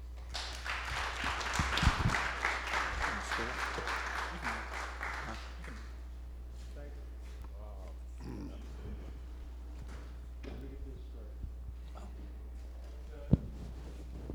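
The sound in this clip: Audience applause welcomes a speaker at a session: dense clapping for about the first five seconds, then tapering into quiet room noise over a steady low hum, with one sharp tap near the end.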